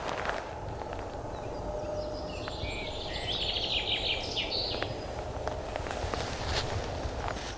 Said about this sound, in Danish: sidder der også hernede bag ved et eller andet sted en lille, en lille fugl, der synger meget kraftfuldt. Øh, det er en gæresmutte